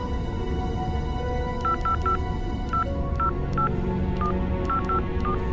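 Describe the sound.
Telephone number being dialed on a keypad: a quick series of about ten short, clear touch-tone beeps in irregular clusters over a steady low background hum.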